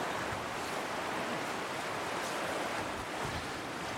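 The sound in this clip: A broad, shallow river in winter flows past a broken weir, giving a steady, unbroken rush of water that stays loud and even throughout, with no voices.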